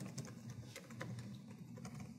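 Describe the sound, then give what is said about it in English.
Keystrokes on a computer keyboard as someone types in a Twitter account name, a dense run of quick, light clicks at a steady pace, fairly faint and with no talking. “So I type in an account that I have,”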